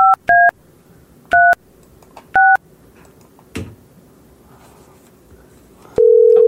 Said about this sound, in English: If it doesn't say call control, I dialed it wrong. So you called the wrong number the first time.